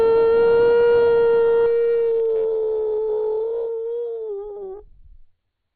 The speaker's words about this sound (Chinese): 这些狼把他给围上了，其中头狼是叫了一声，一声长吼，嗷、哦，